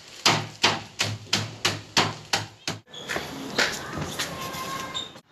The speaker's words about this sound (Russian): Из грецких орехов мы сначала их измельчим, потом соединим с сахаром, и на этом все готово.